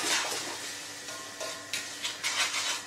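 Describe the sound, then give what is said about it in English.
Semolina being stirred in a pot: continuous soft scraping and swishing with a few louder strokes, and no voices. “Because now, when we add semolina and stir everything nicely,”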